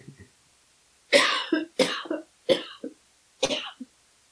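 Someone coughs from a tickle in the throat: four short, harsh coughs, each followed by a smaller catch, spaced unevenly and loud against near silence.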